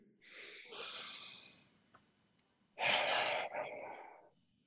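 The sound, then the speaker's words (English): Slow, airy breaths drawn in during a guided breathing exercise: soft hissing swells, one short and one long early on, then a louder, fuller breath near the end, with a few faint clicks in between. “Breathing in, I breathe for me. I breathe for you.”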